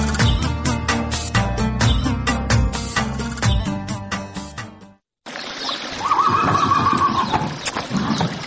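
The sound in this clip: A village racehorse gives one long, wavering whinny. Before it come steady, rhythmic clip-clop hoofbeats, which stop for a brief silent gap before the neigh rings out loudly.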